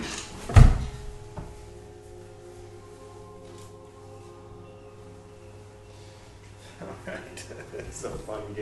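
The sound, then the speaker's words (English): A window opens with one loud clunk near the start, then a fainter click, followed by a low, steady background hum with soft rustling toward the end. “So I'm going to open a window real quick.”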